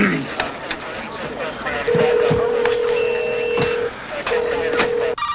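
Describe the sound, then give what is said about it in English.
A telephone is picked up and dialed, with several sharp clicks of handling and keypresses around a steady low tone that sounds twice, separated by a short gap. “picks up the phone.”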